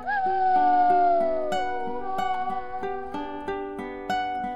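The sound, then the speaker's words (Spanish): A long, wavering howl slides downward in pitch over a rhythmic run of plucked musical notes that repeat at an even pace. “El último aullido de los pueblos pequeños.”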